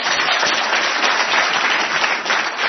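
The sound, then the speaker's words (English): Steady audience applause at a recovery meeting, many hands clapping in a dense, even roar that holds at a constant loudness from start to finish. “you can cheer for God because that's who you're cheering for.”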